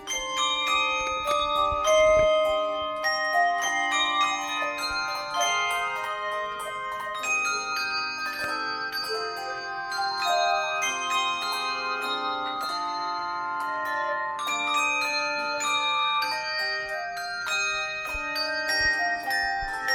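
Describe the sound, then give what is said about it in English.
An advanced handbell choir rehearses in a church, ringing many clear, bright bell chords and melodic runs. The tones overlap and sustain in shimmering layers, with no talking. “The first one on this Sunday is going to be our Advanced Bells Choir in a Bells Festival at the church. And so right now we're just going to kind of walk in and hear them rehearsing.”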